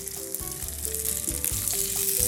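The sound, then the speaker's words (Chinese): Food dry-frying in a pan with very little oil, a steady dense sizzle with small crackles and pops throughout, with no one speaking. “好啦，我们也没有用到太多的油，就让它这样子。干煎，主要是那个恰恰的感觉了。”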